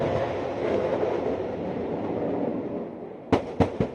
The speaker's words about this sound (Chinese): 这是台军的海马斯多管火箭系统成军以来首度实战化实弹射击操演。